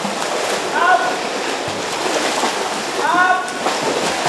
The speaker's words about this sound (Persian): گروهی از زنان چینی در استخری در غرب سیدنی در کلاس‌های مبتدی آموزش شنا شرکت می‌کنند تا به حفظ سلامت خود کمک کنند.